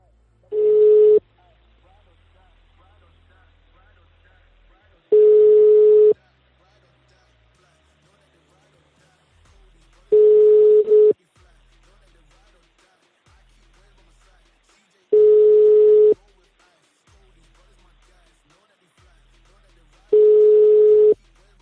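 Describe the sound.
Telephone line tone heard while a number is redialed: five evenly spaced one-second bursts of a steady mid-pitched tone, roughly five seconds apart, with near-silence between them.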